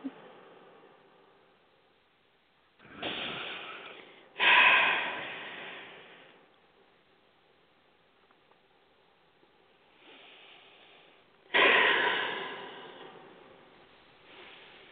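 Deep, rushing breaths during a guided energy release, with three strong, hissing exhalations and a few fainter breaths between long quiet gaps.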